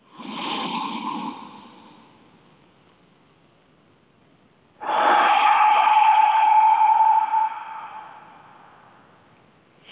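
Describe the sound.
Two slow, deep breaths, loud and airy, the second drawn out longer with a faint whistling edge, separated by a quiet pause.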